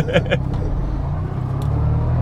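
Car engine of a driving-lesson vehicle moving around a parking lot: a steady, low rumbling drone that holds evenly throughout.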